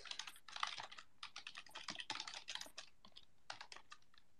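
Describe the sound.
Someone types a short post on a computer keyboard: quick, light key clicks in uneven bursts with brief pauses between runs, the tapping soft and crisp throughout.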